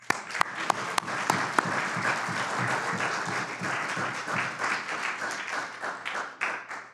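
A Messianic audience at Beth Hillel in Atlanta applauds to welcome a rabbi. A few sharp, separate claps open the sound, then it quickly fills into steady, moderately loud clapping that thins toward the end.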